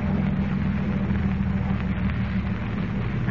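Boat motor running as the craft slows toward a channel, a steady, dense drone with a low throbbing hum that stays level and unbroken for the whole stretch.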